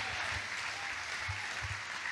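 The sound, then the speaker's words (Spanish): An audience claps at a church service, a steady, dense wash of hand claps that continues evenly throughout at a fairly soft level. “¿Alguien le da palmas al Señor hoy este día, amado hermano?”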